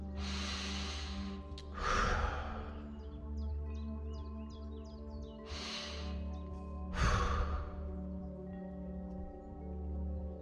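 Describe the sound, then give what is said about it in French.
Slow, deep breaths with a lengthened exhale, heard as a few soft, airy breath swells spaced far apart over a quiet sustained tonal drone. “vous prenez simplement quelques profondes respirations à leur propre rythme.”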